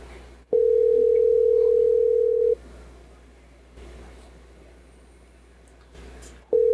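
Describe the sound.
The ringback tone of an outgoing phone call waiting to be answered: a steady electronic tone of about two seconds, a roughly four-second gap of faint line hiss, then the tone starting again. No voices are heard.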